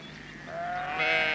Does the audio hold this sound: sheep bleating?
yes